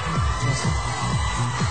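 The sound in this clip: Concert audience ovation for singer Thierry Amiel: a loud, sustained mass of crowd cheering and high shouting that stays steady from start to end.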